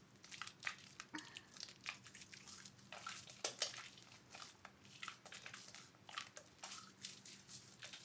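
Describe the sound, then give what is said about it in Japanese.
Soft, wet squishing and rubbing as bare hands lather and massage the body, with no towel used, in many quiet, irregular strokes and drips and no talk. “次は体をマッサージしながら洗っていきます。丁寧に洗うためにボディタオルではなく手で綺麗に洗っていきますね。”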